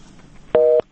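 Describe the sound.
A single telephone busy-signal beep sounds after a radio call-in listener's call drops. It is a short, steady, clear electronic tone of about a quarter second against a quiet line.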